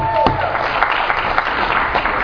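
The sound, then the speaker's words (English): Convention audience applauding, a steady wash of many hands clapping that holds evenly loud from start to finish. “Let's give it up for Tony.”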